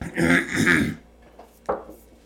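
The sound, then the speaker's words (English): Throat clearing, one loud rasping, drawn-out clearing that lasts about a second, then quiet with a brief softer sound afterward. “Clear the throat.”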